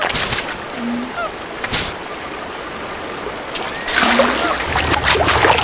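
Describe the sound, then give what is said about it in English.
Water splashes as a video game character swims across a river: a few short splashy bursts, then louder continuous sloshing toward the end. “right now I'm at a spot where I think I'm going to be doing some swimming here.”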